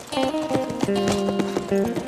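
Horse hooves clip-clop steadily as a rider rides away, many even hoofbeats at a walking pace, with sustained musical tones underneath throughout.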